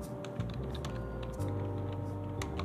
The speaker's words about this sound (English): Let's type in Lifetime Cash Money